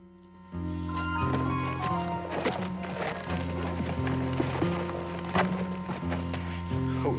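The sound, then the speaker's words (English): Hooves clop as a horse is led by a rope on its bridle through bare bushes to a cliff face. Many irregular, crisp clops sound at a walking pace over a steady low background. “Holding onto the rope attached to Whiskey's bridle, Jack leads the way through some bare-looking bushes and comes to a stop in the shelter of a cliff face.”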